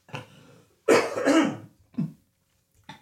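Coughing and throat clearing by one person: a few separate rough bursts with short pauses between them, loud and with no other sound.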